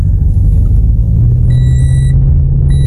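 A car setting off and driving, heard as a loud, steady low engine rumble throughout, with a high electronic tone sounding partway through.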